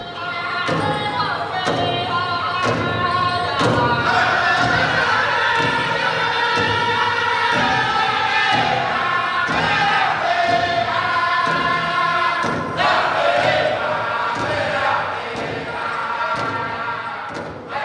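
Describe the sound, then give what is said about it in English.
Native American drums beat steadily and loudly under group singing at a powwow gathering in Bemidji, Minnesota, the voices carrying a continuous chanted melody over the even, pounding rhythm. “That's the sound of Native American drums and singing at the second annual Bay Majigama Powwow, which was recently held in Bemidji.”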